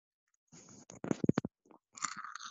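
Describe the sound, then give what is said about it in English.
Someone chews and crunches a Kinder Happy Hippo snack, producing short, quiet bursts of crisp biting and mastication separated by brief pauses. “I'm doing a bit of AMSR, whatever you call it. ASMR? Yeah. Nobody wants that. I'm eating a happy hippo.”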